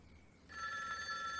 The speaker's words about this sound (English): Oh, phone rings.